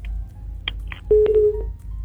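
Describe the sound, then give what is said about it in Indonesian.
A telephone sounds with a few short electronic tones followed by one longer steady tone, over a constant low hum. “telepon sudah berdering dari tadi, kita terima dulu.”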